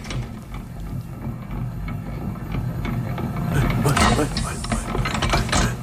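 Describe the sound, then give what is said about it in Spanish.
A mechanical mixer with rotating arms whirs and clatters steadily, a dense, continuous churning that swells a little louder toward the end. “¿qué es este sonido? Esto es una mezcladora, uno de estos brazos que van girando.”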